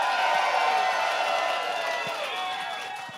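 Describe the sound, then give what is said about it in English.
A live audience at the Doug Fir in Portland, Oregon cheers, whoops and claps at the opening of a comedy show. The crowd noise is loud and sustained, easing slightly toward the end. “Welcome to All Fantasy Everything, live in Portland, Oregon at the Doug Fir. Make some noise, everybody.”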